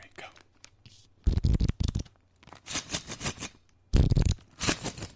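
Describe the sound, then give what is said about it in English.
Crinkling and rustling of new stickers and buttons being handled, in several sharp, crackly bursts separated by short quiet gaps. “You guys hear that? You hear it? That's the sound of our sweet new stickers and buttons.”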